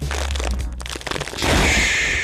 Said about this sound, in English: You crack it open. Okay. I'm not normally a Shapes guy. I'm going to do this on the mic. I don't know how this sounds.